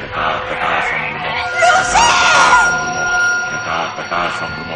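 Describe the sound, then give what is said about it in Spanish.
A child screaming on the ground in a horror film scene, a strained high cry that wavers up and down amid a loud mix of other yelling voices. “El niño, con la carne podrida y cuarteada, grita en el suelo.”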